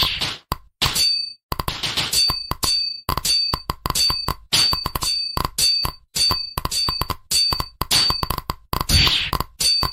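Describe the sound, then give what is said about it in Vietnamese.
Metallic clinks and heavy whacks from a big sword stabbing in a video game, landing in a rapid, irregular stream of sharp bright hits with ringing edges and no talk. “Thì phải cái kiếm đam to vậy! Nó chọc một phát mất 10 máu kìa!”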